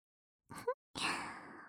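Soft breath blown into the ear: a short, breathy puff with a faint voiced catch, a brief pause, then a longer, steady, airy blow that slowly fades, all quiet and close.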